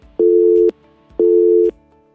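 A telephone busy tone sounds while a call is being redialed: two loud, identical, steady beeps, each about half a second long and separated by a gap of similar length. No voices.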